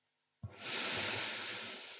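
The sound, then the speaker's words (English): One long, deep breath, an airy, rushing hiss that begins abruptly and holds steadily to the end, heard alone with nothing else around it. “Another deep breath.”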